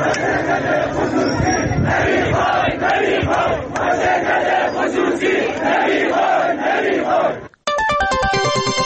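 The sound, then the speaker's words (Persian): A large crowd of factory workers chanting and shouting in protest against the privatisation of their plant, a dense, loud wall of voices that stops abruptly, followed by a brief electronic tonal jingle. “سایت باشگاه خبرنگاران جوان نیز در این مورد فیلمی از اعتراض کارگران این شرکت به خصوصی سازی این واحد تولیدی را پخش کرد که بخشی از آن را می‌شنوید”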